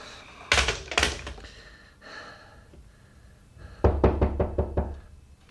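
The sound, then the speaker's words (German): Knocking on a door in the evening: two firm knocks, then a quiet pause with faint breathy sounds, then a quick run of many sharp raps. There is no talking. “Es hat geklopft”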